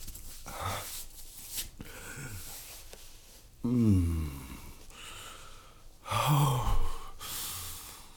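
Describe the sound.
Heavy, uneven breathing: breathy inhales and exhales in irregular bursts, with two louder voiced gasps that carry a clear pitch standing out from the quieter breaths. No speech.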